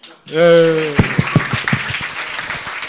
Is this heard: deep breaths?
no

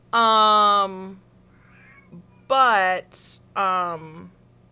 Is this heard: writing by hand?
no

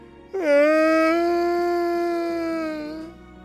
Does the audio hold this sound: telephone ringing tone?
no

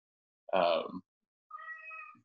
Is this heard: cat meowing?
yes

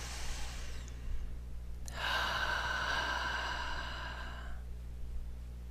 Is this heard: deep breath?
yes

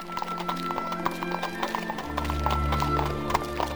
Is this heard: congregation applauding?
no

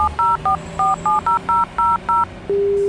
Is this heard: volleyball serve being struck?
no

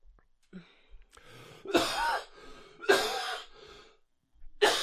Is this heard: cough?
yes

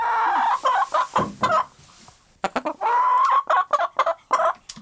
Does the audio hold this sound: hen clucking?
yes

